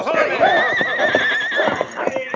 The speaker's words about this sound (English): His attack threw the horses into a panic. They reared and plunged wildly.